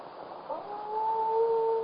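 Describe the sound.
Wolves howl: one long howl swells upward and then holds a steady, drawn-out tone, with a second, lower howl sustained alongside it, fairly faint and with no other sounds.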